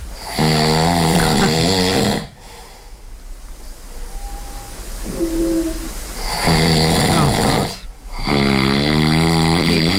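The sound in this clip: Loud snoring from a sleeper with palatal stiffness: long, harsh, rasping snores with a heavy low buzz, broken by a quieter stretch of breathing in the middle.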